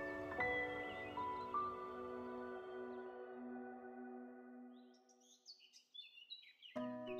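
Magpie calling in the early morning, a few short, high, bright chirps breaking in near the end after a quieter stretch.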